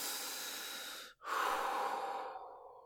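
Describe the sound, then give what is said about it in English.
Deep breathing in and out, with a long airy exhale, a brief pause, then a strong inhale that gradually fades, heard alone without talk. “Deep breaths. Deep breaths. Do it with me. In and out. In and out.”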